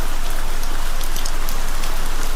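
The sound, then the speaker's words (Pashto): Heavy rain pours steadily on a street, making a loud, dense, unbroken hiss of countless drops that stays even in level throughout with no pauses. “باران تیز شو، داسې شرشوری شو لکه ناوې چې له اسمان را خوشې شي.”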